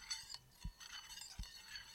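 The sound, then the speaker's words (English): A spoon clinks against a bowl of cereal: a few light, bright clinks and taps, fairly faint, with a couple of soft, low knocks between them and no talking. “It's a bowl of cereal. That's all it is.”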